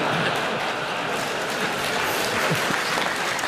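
Audience applause welcoming guests, a dense, even crackle of many hands clapping without a break.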